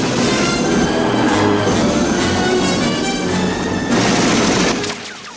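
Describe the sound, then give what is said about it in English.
Heavy gunfire from a helicopter at a Russian gunner: a dense, continuous roar of shots with booming weight that holds loud throughout and drops away near the end. “He flies above the chopper. Banks takes out the Russian gunner.”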